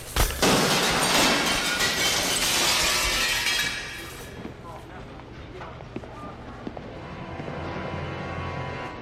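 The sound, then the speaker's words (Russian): Shop window glass shatters as a pushed shopping cart crashes into it: a loud, dense crash that lasts several seconds, then scattered pieces tinkling and settling more quietly. “Она толкает тележку, и та въезжает прямо в витрину магазина.”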